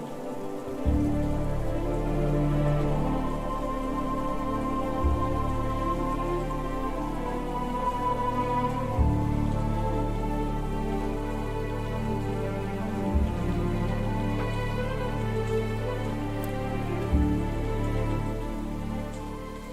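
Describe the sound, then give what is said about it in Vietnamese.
Steady rain falls as a downpour slowly eases, a dense, even hiss of drops on a surface that holds unbroken throughout, with a low sustained hum beneath it. “về đến nhà ông Luận, trời cũng đang dần dần ngớt mưa”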